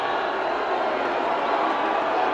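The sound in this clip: Crowd booing at a Dave Chappelle comedy show with Elon Musk on stage, a loud, unbroken roar of many voices that holds steady throughout.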